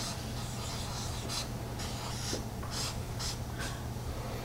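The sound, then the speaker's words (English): Words are written on a board in a few faint, brief scratching strokes scattered over a steady low hum and hiss. “I am going to write Kshetrajna on this side. Kshetra on this side.”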